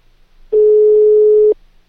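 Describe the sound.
While a telephone number is dialed, a single loud, steady telephone tone sounds at a constant mid-low pitch for about one second, then cuts off cleanly.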